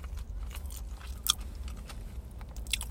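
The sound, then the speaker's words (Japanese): Chewing a corn mayonnaise sandwich from a convenience store: soft, moist mouth sounds with a couple of louder, sharper crunches standing out from the steady chewing. “咀嚼音がしますけど、えー、まずはツナ、ツナかなこれ。”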